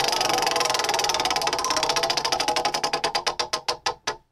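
A prize wheel spins with rapid ticking that gradually spreads out as the wheel slows, the clicks becoming sharper and more widely spaced near the end, followed by a last isolated click.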